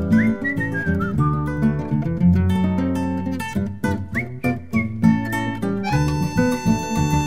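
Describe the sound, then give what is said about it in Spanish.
Bright, bird-like whistling carries the melody of a Spanish-language pop song, with sustained and sliding whistled notes over a full instrumental backing that keeps a steady beat throughout. “Yo silbo y contesto, chiflidito silbador.”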